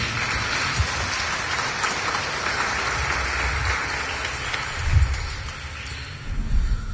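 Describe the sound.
A church audience claps along, making a steady, dense patter of hands that continues evenly with a few heavier low thumps toward the end.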